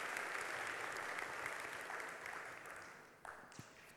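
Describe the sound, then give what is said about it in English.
Audience applause welcomes a guest to the stage at a morning faith gathering, dense continuous clapping that holds steady, then thins and fades out near the end. “Won't you give Miranda a huge hand as she comes this morning?”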